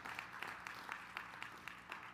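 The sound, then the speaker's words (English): A church audience claps in praise, producing faint, steady unison hand claps at a quick, even rhythm of about four per second over a low background hum. “Hey, give the Lord a big hand clap of praise.”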